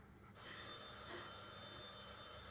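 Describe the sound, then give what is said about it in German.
A telephone rings, a bright electric bell tone starting abruptly and sustaining steadily for over two seconds, with shimmering high overtones and no voices. “Telefon. Soll ich hingehen?”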